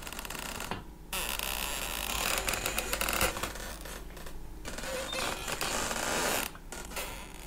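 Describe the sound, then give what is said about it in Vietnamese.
Slow, drawn-out creaking of a bedroom door swinging open, a steady grinding groan that runs for several seconds with a few brief breaks. “Cánh cửa buồng bỗng nhiên kẽo ca kẽo kẹt, từ từ mở ra.”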